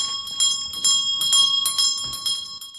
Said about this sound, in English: A bell on the wall begins to ring.